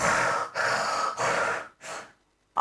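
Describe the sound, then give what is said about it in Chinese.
A voice imitates a man snoring: four breathy, rasping snores in a slow rhythm, the last one shorter and followed by a pause, fairly quiet and without any talk. “这王老大呼噜呼噜的打上呼噜了”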